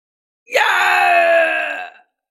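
A man's loud shout, one drawn-out cry of about a second and a half with a strained, groaning tone. It comes alone, with no other sounds around it.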